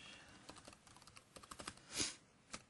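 Faint, quick typing on a computer keyboard, many light key clicks in an uneven rhythm with one louder clack partway through.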